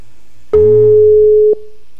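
A phone call ringing unanswered: a single loud, steady ringback tone lasting about one second, alone, with no voices.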